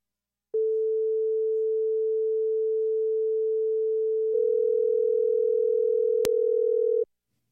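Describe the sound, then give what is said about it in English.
Telephone ringing tone built from two pure sine tones: a steady, smooth single tone sounds alone at first, then a second tone joins and the combined sound takes on a fast, pulsing warble. A brief click comes near the end before it cuts off. “The next one I'm going to show you is the sound of a call ringing. And I'm going to put this one to 480. So one is 440 and one is 480.”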